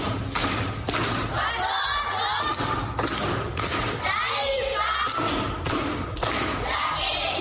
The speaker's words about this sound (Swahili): Makofi kwa shangazi.